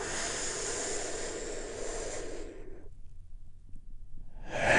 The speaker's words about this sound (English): turning off the noise and the busyness from the world and just taking a big, deep healing breath. All together, here we go